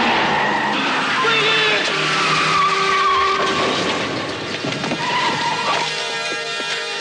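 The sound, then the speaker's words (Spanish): Car tyres skid in a long, loud screech as a car cuts across a pedestrian running into the road. Dense, continuous noise fills the whole stretch without a break. “Sale corriendo a la calzada, pero un coche se le cruza y un camión lo embiste de lleno.”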